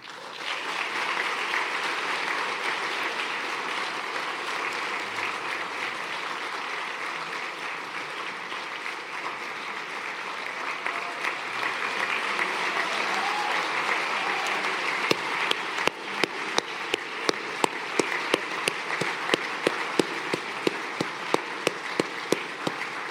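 Audience applause welcomes ten Paralympic medal winners from the Beijing 2022 Games at a disability hall-of-fame awards ceremony. Steady, sustained clapping runs throughout, with sharper individual claps standing out toward the end.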